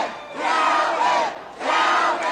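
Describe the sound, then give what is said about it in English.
Election-night crowd in New Orleans cheering for the newly elected Orleans Parish clerk, loud roaring and shouting voices rising in two long surges with a brief dip between them. “On November 15th, 2025, election night, an exuberant crowd gathered to celebrate Calvin Duncan, Orleans Parish's newly elected clerk.”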